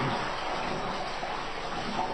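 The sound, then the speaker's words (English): Water rushes from a clogged toilet that is overflowing. The sound is a steady, fairly loud wash of noise with no clear breaks. “I can't believe this is not flushing. It's totally overflowing.”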